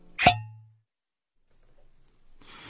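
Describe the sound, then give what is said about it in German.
A cork pops out of a bottle of Chilean Montes Alpha wine with a single short, sharp pop and a brief ringing tone, then near silence before a faint rustle at the end. “Ilju entkorkte eine Flasche Wein. Es war ein Montes Alfa, ein erstklassiger chilenischer Wein.”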